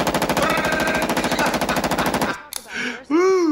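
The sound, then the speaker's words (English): Austrian-made Steyr AUG rifle firing on automatic: a loud, fast stream of many rapid shots rattling for about two seconds before the burst cuts off. “Now check out this gun here. Now this here is a Steyr AUG. Steyr AUG's a bad motherfucker. Listen.”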